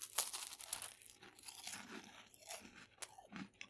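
Crunchy biting and chewing of a cheesy, pizza-flavoured snack: a steady run of crisp, crackly crunches with short gaps, fairly quiet and with no talking.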